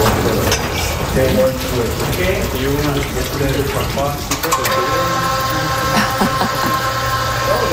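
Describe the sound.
Running water mixed with the mechanical noise of an aerial work platform during monthly wall maintenance: a steady, fairly loud wash of flowing water with a continuous machine hum underneath.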